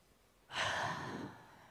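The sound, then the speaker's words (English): A single deep breath during a guided relaxation: a soft, airy, sigh-like exhale swells quickly and then fades, faint and alone. “So let's gently close our eyes and take a deep breath again.”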